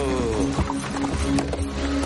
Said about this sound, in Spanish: Llega la carreta de Dyer y Abigail.